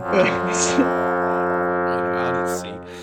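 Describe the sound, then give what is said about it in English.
A foghorn-like blast gives a low, steady, droning tone that holds evenly for about two and a half seconds, then fades out. “And this is like when it rolls in like a thick fog, like. Exactly, sound of the foghorn.”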